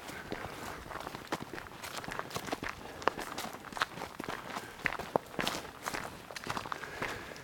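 Footsteps of people walking along a hiking path, with many soft, irregular crunching steps that keep a steady walking pace at a fairly low level.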